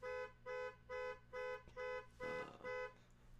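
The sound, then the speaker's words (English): A car alarm outside sounds seven even beeps of a bright, buzzing, harmonic-rich tone, pulsing at a steady, regular pace and fairly faint. “Yeah, the old car alarms.”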